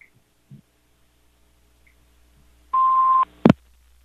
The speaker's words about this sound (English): Okay, and it actually beeped that time.